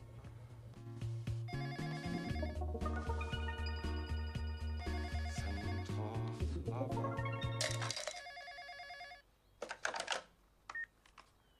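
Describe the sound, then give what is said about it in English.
A telephone rings with a bright, melodic electronic ringtone. Steady, fairly loud repeating tones carry on for about eight seconds, then stop, leaving a few faint, scattered noises. “As he does so, the phone rings.”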